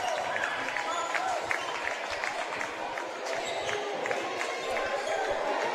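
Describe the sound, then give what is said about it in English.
Rhythmic bounces of a basketball being dribbled during a varsity boys' game in a school gymnasium, with many quick thuds under a continuous murmur of crowd noise and scattered applause. “Lee Scott Academy will dribble it out here inside Sanford Gymnasium.”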